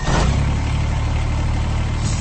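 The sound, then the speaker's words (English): Steady engine idle of a Kubota BX Series subcompact tractor: a continuous low, even rumble with a broad mechanical hiss above it, holding at the same loudness throughout with no voices. “That's the sound of a Kubota BX Series, America's top-selling subcompact tractor for over 11 years running.”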